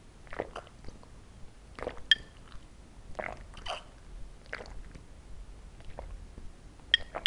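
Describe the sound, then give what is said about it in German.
Tea being sipped makes a run of soft, wet mouth noises: short slurps, smacks and swallows. They come as many brief, fairly quiet bursts separated by near-silent gaps, with no talk. “Trink mal einen Schluck Tee.”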